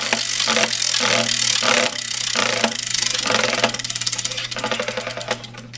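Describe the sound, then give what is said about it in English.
A prize wheel spins and clicks, its ticks quickening into a fast rattle and then spreading apart as the wheel slows toward the end, over a steady tonal background. “Let's see what the Wheel of Chingadera brings to us today.”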